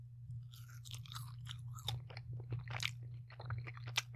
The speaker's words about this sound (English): tear off a little piece of this curd patty and try it by itself. This little edge piece.